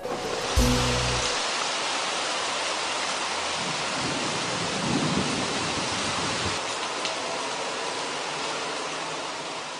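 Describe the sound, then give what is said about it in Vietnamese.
Steady heavy rain from a thunderstorm makes a dense, continuous hiss that stays even throughout, with a brief low rumble right at the start. “Trời lại đổ mưa.”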